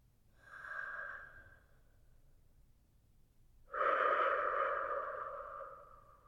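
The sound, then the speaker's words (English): Slow, deep breathing during a relaxation exercise: two long breaths with a whistly, tonal edge, a softer one first and then a longer, louder one after a pause. “Taking that clean air in. And that smoke out.”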